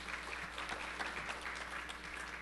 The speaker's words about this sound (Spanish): Gracias, bienvenido. Un aplauso, por favor.